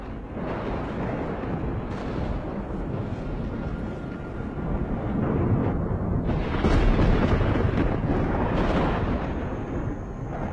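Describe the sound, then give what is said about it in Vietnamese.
Sudden rumbling thunder breaks out on a calm day before heavy rain, a loud, continuous low roar that rolls on for about ten seconds and swells stronger midway before easing slightly. “Chả hiểu làm sao, thời tiết hôm ấy đang yên đang lành, tự nhiên nổi lên sấm động ầm ầm.”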